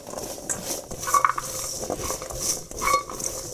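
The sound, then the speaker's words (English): Scraping and light clinking of a spatula tossing nuts coated in maple syrup, a few irregular strokes with no voices. “After you put the maple syrup on the nuts, give them a quick toss with a spatula or a spoon to get them nicely coated in the maple syrup.”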